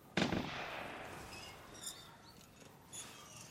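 A hunter's gunshot outdoors in the morning: one loud, sharp bang with a long fading tail, followed by fainter, smaller sounds.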